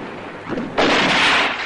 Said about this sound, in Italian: Non lo sai che all'attacco bisogna sparare. Ma io non vedo nessun tedesco. E spara anche tu, spara lo stesso.